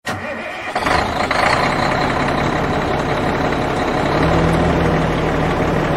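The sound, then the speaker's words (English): A souped-up Winnebago motorhome on monster-truck wheels starts its engine by remote auto start. A brief crank gives way to the engine catching, then a loud, steady, low idle continues to the end. “this is one souped-up Winnie on monster wheels. You got that right. Here, let me hit the auto start remote first.”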